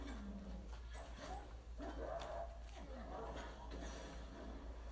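A dog whines in a series of soft, wavering, high-pitched whimpers that rise and fall, repeating over a low steady hum.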